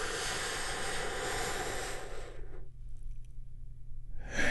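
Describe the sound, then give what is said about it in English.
A deep breath is drawn in as a loud, airy rush lasting about two seconds. A quiet hush follows, then the airy sound of the outward breath begins. “We get things started by taking a big, deep, healing breath all together.”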